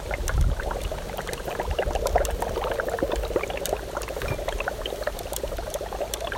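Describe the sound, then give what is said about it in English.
Dry ice bubbles vigorously in water mixed with dish soap, making a steady, dense fizzing with many small pops and gurgles. It stays at an even, moderate level from start to finish. “this is the sound of dry ice and water and dish soap.”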